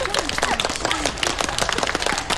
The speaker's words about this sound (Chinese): 来，大家鼓掌祝贺一下。